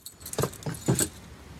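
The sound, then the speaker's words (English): A set of keys, pulled out from under a plant pot, jangles in a few brief, soft metallic jingles, the clinks bunched close together and fairly faint against a low background. “She bends down and pulls a set of keys out from under a plant pot.”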